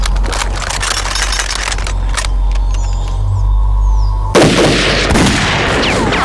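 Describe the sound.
Gunfire in a skirmish: many sharp cracks in quick bursts for the first couple of seconds, then a quieter lull, before a loud barrage of shots erupts again to the end.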